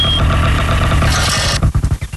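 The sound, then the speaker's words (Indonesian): A motorcycle engine arriving gives a loud, dense rumble that holds steady, then breaks into choppy, pulsing bursts near the end. “Eh, itu macam bunyi motor.”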